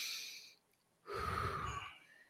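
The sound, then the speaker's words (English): A deep breath: a soft breathy hiss, a brief pause, then a louder rushing breath with a low rumble that fades out. “Let's take a deep breath,”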